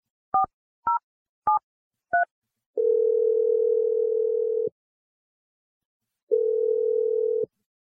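Telephone keypad dialing for an outgoing call: four short two-tone key beeps in quick succession, followed by two long, steady ringback tones separated by a silent pause.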